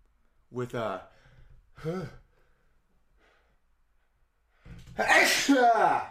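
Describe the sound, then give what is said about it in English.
A single loud, breathy sneeze comes after two short voiced intakes that build up to it, with a quiet pause before the final burst. “I felt so good. Like, sneezing feels so damn good. It's like crazy how good sneezing feels.”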